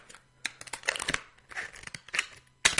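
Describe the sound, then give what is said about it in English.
Scissors cut the base off a plastic bottle, giving many irregular crinkling, crackling snips in short bursts separated by brief pauses, fairly faint overall. “I've cut off the base of mine. And now I can chuck out the base, I don't need that anymore, but keep the rest of the bottle.”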